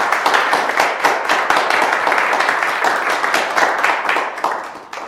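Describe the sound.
An audience applauds a professor introduced to lecture on military and civil aircraft design. The clapping is dense and steady and tapers slightly toward the end.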